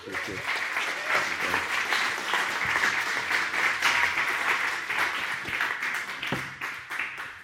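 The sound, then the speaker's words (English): A church audience applauds to welcome a visiting preacher. Dense, steady clapping runs throughout at an even level, with some voices mixed in. “So why don't we give him a hand and welcome him.”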